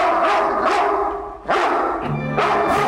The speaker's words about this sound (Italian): Questa era la sua voce originale, neanche doppiata. Questo è il pastore tedesco più famoso della storia del cinema.